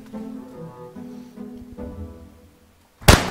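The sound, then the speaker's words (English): A single sharp, loud gunshot, fired at a person's rib to push it back into place, bursts out abruptly after quieter talk-like sounds and a moment of near silence. “I need you to shoot me. Shoot you? My rib is out of place, and I could, if you shoot my rib, it'll push it back in.”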